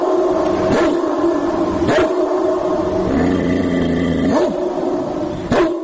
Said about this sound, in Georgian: შეიძინეს ეს MP3 პლეიერები, მასზე ჩაწერილი ძაღლების ყეფა ღრენით.